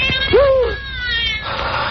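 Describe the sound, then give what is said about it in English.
A cat meows over a telephone line: one clear, rising-then-falling meow with a thin, band-limited tone, followed by faint line noise. “The cat's come back to the island. I've heard it at night.”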